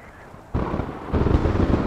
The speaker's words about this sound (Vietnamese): Sấm chớp địa đùng liên hồi trên mái nhà